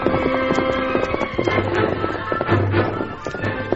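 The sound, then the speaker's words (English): Horses galloping as three riders each lead a string of ponies: many rapid, rhythmic hoofbeats over a low, steady background, with no voices. “The Lone Ranger rode between Squint and Hank, and each of the three horsemen led a string of the stolen Indian ponies.”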